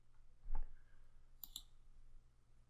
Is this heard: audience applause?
no